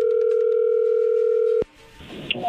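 A steady telephone tone as a phone call comes in: it holds for about one and a half seconds, then cuts off abruptly with a click, leaving faint line noise.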